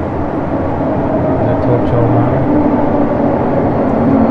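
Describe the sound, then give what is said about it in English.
A JR train at platform 1 of a Japanese railway station, a loud, steady low rumble with faint humming tones that holds evenly from start to finish. “So, alright, I'm gonna get on the train, and you can enjoy the ride along with it.”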